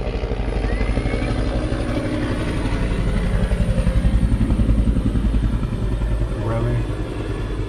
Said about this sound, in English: Pardon the helicopter.